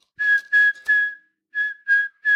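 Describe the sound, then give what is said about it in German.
A person whistles a Christmas tune in clear, high, steady notes on one pitch: three in a row, a short pause, then three more, the last cut off. “Ich pfeife es dir vor.”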